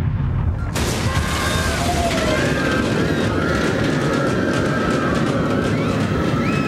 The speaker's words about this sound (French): Le mur du bouclier vient d'exploser ! C'est faux d'utiliser des atomiques !